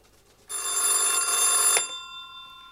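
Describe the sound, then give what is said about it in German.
A single burst of telephone bell ringing, loud and steady for just over a second, then cutting off into a fainter lingering tone. “Einen Tag später wurde er wieder angerufen.”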